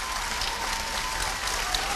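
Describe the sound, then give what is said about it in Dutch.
Applause for the winning team at the close of a youth cycling tour, a constant, even roar of many hands clapping at moderate volume with no pauses and no clear voices. “Applaus nogmaals voor SKR.”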